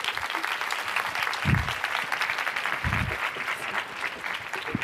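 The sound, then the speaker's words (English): Audience applause greets a speaker walking on stage at a talk, a dense, steady clapping that holds at an even level for about five seconds with a few dull low thumps inside it. “Please put your hands together and welcome Caroline Webb.”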